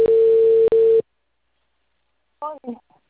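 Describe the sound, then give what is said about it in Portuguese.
Telephone ringing tone on a call placed from an office: a steady, loud tone with one brief break, then silence and a short burst of voice. “tô te ligando aí daqui do escritório, tá? Atende aí.”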